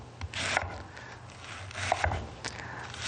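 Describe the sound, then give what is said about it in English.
A knife finely slicing vegetables into thin strips on a cutting board with long sliding strokes; faint, steady scraping rubs with a few sharper taps of the blade. “So we're just going to just finely slice it, kind of as fine as you can, but it doesn't have to be too kind of coleslaw-like. And again, when you're cutting, make sure you're sliding your knife nice through, nice long cuts.”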